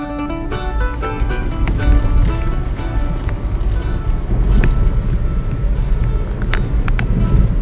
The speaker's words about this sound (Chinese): 我正在开车前往接阿宝的路上。今天宜兰员山乡的户外温度是十六度，下着雨。